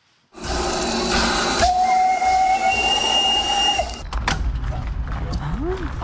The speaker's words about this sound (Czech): Vzácné historické lokomotivy z Česka i ze zahraničí dorazily na 7. ročník festivalu parních lokomotiv v Benešově.